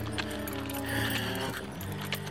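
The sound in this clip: A donkey's hooves trotting fast, a quick clip-clop with faint jangling, under a continuous layered tonal background.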